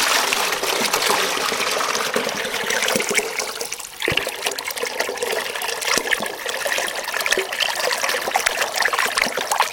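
Water pours from an irrigation canal into a 10-litre container in a loud, steady, splashing rush. It runs continuously, dips briefly midway, then picks up again, with no voices.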